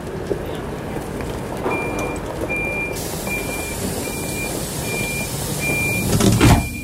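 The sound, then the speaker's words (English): Warning beeps of a train door sound after its open button is pressed: a series of evenly spaced short, high tones over a steady low rumble, with a louder burst of noise at the very end. “Can you press the button to open?”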